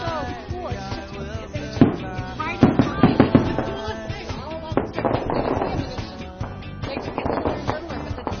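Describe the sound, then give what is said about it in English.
Fireworks going off in synchronized displays at a New Year celebration, a dense, continuous rumble of bangs and crackles with sharper bursts, mixed with tonal honking from car horns throughout. “fireworks that are going off synchronized”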